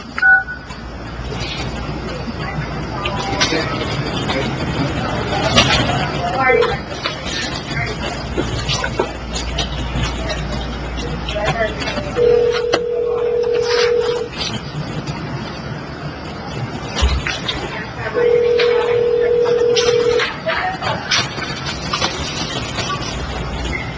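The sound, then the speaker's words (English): Telephone keypad tones as a phone number is dialed, heard as two long, steady, mid-pitched beeps separated by a pause over constant background noise. “we can get on the phone”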